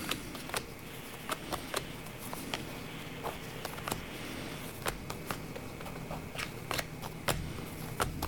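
Cards are drawn and laid out during a card reading, giving many crisp snaps, flicks and soft taps at an irregular pace over a quiet hiss, with no talk.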